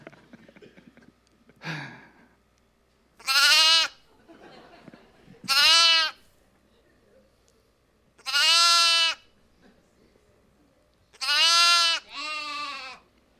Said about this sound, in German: Ein Lamm macht noch mal süßer, würde ich sagen. Da habe ich auch eine Sounddatei dazu.